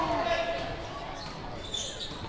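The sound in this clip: A basketball is dribbled on the court during a game, its faint thumps set under steady crowd noise and voices.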